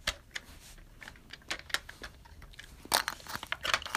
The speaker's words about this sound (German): ich habe schon wieder Kaugummi im Mund und ich bin auch so süchtig nach dieser Scheiße. Ich bin Kaugummi süchtig.